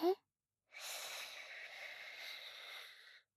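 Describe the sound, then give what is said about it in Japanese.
A slow, deep breath drawn in during a calming bedtime relaxation exercise: one steady, airy inhale lasting about two and a half seconds, preceded by a brief faint vocal sound. “ほらほら、深呼吸して。吸って。”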